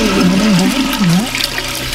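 A toilet flushing, with rushing water and a swirling, gurgling warble that wavers in pitch for about two seconds.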